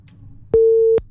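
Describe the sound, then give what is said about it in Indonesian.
A telephone busy tone after a call disconnects: a single steady mid-pitched electronic beep, loud and alone, with a faint click at its start and end. “Oke, terputus ya.”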